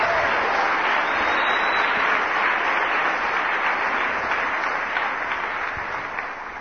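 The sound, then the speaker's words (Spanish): Congregation applause during a sermon: dense, continuous clapping with a thick, hissy texture that holds steady and eases slightly toward the end. “Espero que ese aplauso es porque está entendiendo esto, ¿no?”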